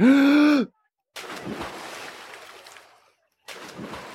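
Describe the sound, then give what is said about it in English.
A big, voiced gasp for air as a swimmer comes up from underwater, rising and then dropping in pitch, followed by two stretches of rushing, watery noise. “And then, when your lungs need more air, you come up and take a big, deep breath. Like this”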